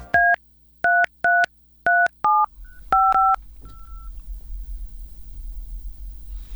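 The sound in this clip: Telephone keypad dialing tones, a quick series of sharp, evenly loud two-tone beeps with short gaps between them, followed by a low steady rumble once the dialing stops.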